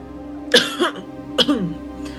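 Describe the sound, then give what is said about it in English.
A man clears his throat in two rough, gravelly bursts with a short gap between them, followed by a faint trailing rasp; no one speaks. “Matt eventually clears his throat.”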